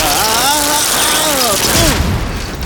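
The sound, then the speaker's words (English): A sci-fi slug zapper weapon firing in an audio drama, a loud synthesized zap of warbling, wavering electronic tones that sweep up and down over a dense crackling burst, trailing off at the end. “You leave me no choice but to use the slug zapper, 1102.”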